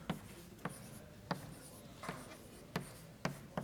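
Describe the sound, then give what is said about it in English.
Writing out a mathematical proof by hand: faint scratchy strokes broken by several sharp taps at irregular intervals. “So let's write the proof.”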